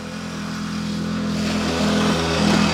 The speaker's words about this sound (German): Vincent Hagen fährt mit seinem Moped auf der Landstraße an ihnen vorbei.